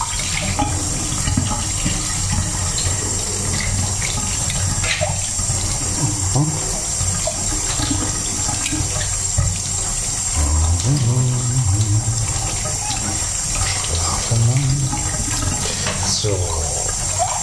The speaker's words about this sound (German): Aber erstmal spüle ich die Tasse nochmal richtig ab.